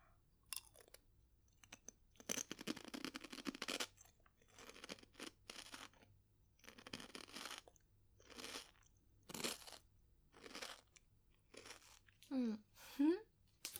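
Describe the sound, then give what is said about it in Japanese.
Crunchy chewing of a simple salt-flavoured, wheat-flour snack: many bursts of crisp crunching separated by short pauses, with a brief voice near the end. “味がね、塩味だけでシンプルなやつなんですけど、 ちょっとこの音も ASMR 的な感じで。”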